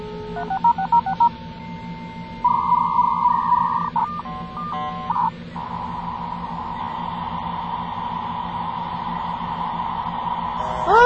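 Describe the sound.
Touch-tone DTMF beeps as a phone number is dialed for a dial-up internet connection: groups of short, clipped tones and one longer tone, then a steady tone held to the end over a low mains hum.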